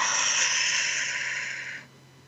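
A deep breath taken together by people in a guided group breathing exercise: one long, steady, airy rush of breath that cuts off sharply near the end, with no talk.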